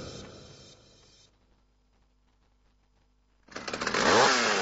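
A chainsaw cutting native forest: the engine's buzzing whine fades away at the start, and after a quiet stretch a loud, rough roar surges in and keeps building toward the end.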